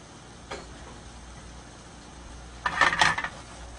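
Gnocchi dropped into a pan with spicy sausage: a faint tick, then after a pause a short, fairly loud cluster of clattering taps and scrapes.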